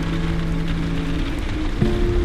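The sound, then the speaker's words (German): Stormy rain patters against window panes as a dense, continuous hiss with a low steady hum underneath. “Das Wetter ist ganz sicher stürmisch. Der Regen prasselt gegen die Fensterscheiben. Der Wind heult durch die Balken.”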